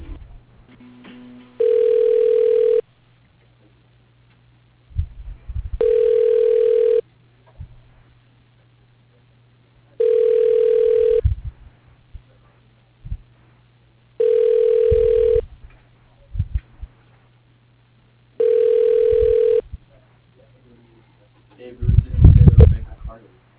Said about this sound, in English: Thank you for calling Harrison Transport. Your call is being transferred.